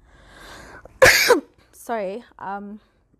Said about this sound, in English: I have a really bad cough and I don't think it's COVID, to be honest.